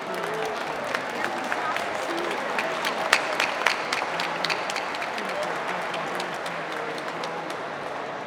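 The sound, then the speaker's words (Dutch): Applause from an audience at a communal meal during an open house, given for the table hosts: dense, steady clapping that continues evenly throughout with a few sharper claps standing out. “Een groot applaus voor alle tafelhosts.”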